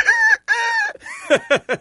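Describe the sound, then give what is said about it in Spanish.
A rooster crows in two long, sustained harmonic calls, then gives a few short, clipped clucking notes. The sounds are loud and heard alone. “Y para despertarme, no necesito el reloj. Tengo el cantillo del gallo.”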